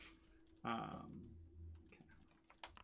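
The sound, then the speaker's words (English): Typing on a computer keyboard: a brief louder thud, then a few faint, scattered key clicks at a low level. “So I'm literally just typing dice formulas into Foundry.”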